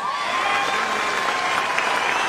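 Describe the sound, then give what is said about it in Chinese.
Audience applause: a dense, steady roar of many hands clapping, mixed with general crowd noise and kept at an even level from start to finish. “这个必须得给他鼓掌”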